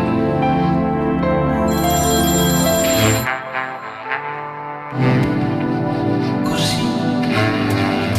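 A telephone ringtone plays loudly and continuously for about eight seconds, a dense tonal pattern of shifting notes that briefly thins in the middle before returning at full strength, with no voices.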